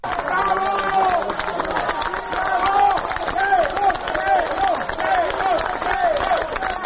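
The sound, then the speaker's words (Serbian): Citizens and opposition party members outside the special court building in Belgrade clap and shout "hero": a loud, continuous crowd with repeated rhythmic chanting over steady applause. “Aplauzom i uzvicima heroj ispred zgrade specijalnog suda u Beogradu građani i predstavnici dela opozicionih stranaka dočekali su 6. septembra Milana Isakova”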